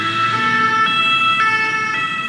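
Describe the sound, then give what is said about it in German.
Emergency vehicle siren in busy Paris city traffic, loud and continuous, its tone switching back and forth in a regular two-tone pattern over a low traffic rumble. “Sirenen, aufheulende Motoren.”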